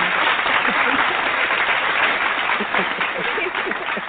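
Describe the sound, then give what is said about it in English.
A hand-clap applause sound effect plays as dense, continuous clapping. It stays loud and even for about four seconds. “I'll give you a hand clap.”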